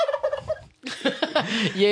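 A live turkey gobbles in quick rattling bursts, its raspy harmonic calls coming as a short series of pulses, a brief pause, then a louder, denser run of gobbles that fills the rest of the moment.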